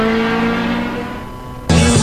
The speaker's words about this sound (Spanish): Lleva y estrena una moto. Es esta, te la puedes llevar a tu casa.